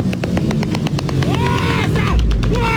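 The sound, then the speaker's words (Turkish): Motorcycle engines roar as dozens of riders pull wheelies one after another in a stunt show. The loud engine sound pulses rapidly, with talking heard over it. “Onlarca motosikletli peş peşe tek teker üzerinde ilerleyerek gösteri yapıyordu.”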